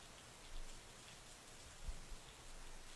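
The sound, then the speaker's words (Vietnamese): A sudden thunderstorm downpour falling outdoors onto a half-burnt pile of paper effigies and a fire: steady, dense rain hiss with slight surges in intensity, faint and continuous, with no voices. “tự nhiên ngoài trời nổi cơn giông. Mưa trút xuống đám ngựa voi giấy đang cháy dở.”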